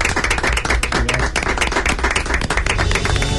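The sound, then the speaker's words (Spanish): An audience gives a loud round of applause. Dense, rapid clapping continues without a break, with sharp individual claps standing out in the steady wash. “desde Hispanidad Radio y desde Redes Humanas, un fuerte aplauso para también para todos ustedes.”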